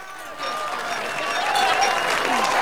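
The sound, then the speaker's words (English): Guests at a wedding clap wildly, a dense burst of applause that swells louder over a few seconds amid crowd voices. “As Jimmy leans to kiss Kate once more, she jumps up, straddling him. The guests clap wildly.”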